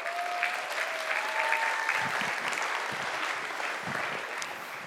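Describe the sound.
Applause from an audience welcoming a woman to the stage during a church service across several locations. It is a steady, dense clapping that holds at an even level for the whole stretch, with no clear voices.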